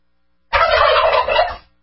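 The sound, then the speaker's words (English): A turkey gobbling: one loud, rapid rattling gobble lasting about a second, heard alone. “Take a gaggle of turkeys and turn them loose on the border.”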